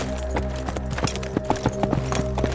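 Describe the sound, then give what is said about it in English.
Hooves of a horse trotting along a trail, with many quick, evenly spaced clip-clop beats and a steady low hum running underneath. “I didn't want to be on this trail all day, so I spurred him to move at a nice trot.”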